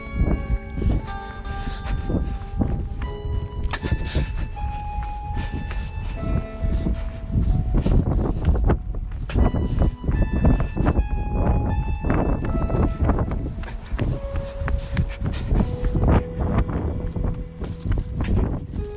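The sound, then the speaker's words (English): A person running: quick, rhythmic footfalls patter continuously alongside steady musical tones. “I'm pretty sure that's the sound of my brother running.”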